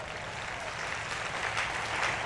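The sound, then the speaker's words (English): A church audience clapping during a service: a sustained, even patter of many hands at moderate loudness that keeps going throughout without a break. “Keep clapping, keep clapping, keep clapping, keep clapping.”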